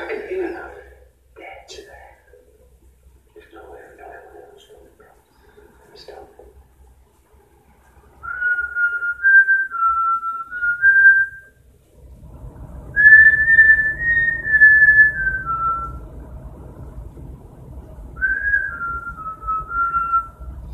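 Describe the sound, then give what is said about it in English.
A woman whistles a tune in three phrases of gliding, wavering notes after some talking at the start. A low rumbling noise sits under the later whistling. “She's whistling”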